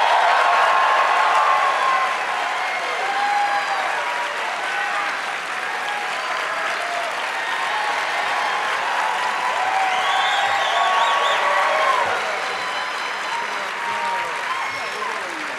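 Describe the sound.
Studio audience applause and cheering greets guests arriving on a comedy talk show. The clapping is steady and dense for the whole clip, with some cheers mixed in.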